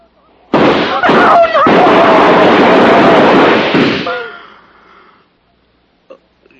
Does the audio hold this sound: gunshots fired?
yes